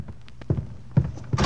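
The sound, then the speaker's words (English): A closet door being opened in a radio drama gives a few dull, low thumps and knocks spaced across the moment, ending in a brief airy, rustling burst. “Fawzi, go to the closet. Open the door.”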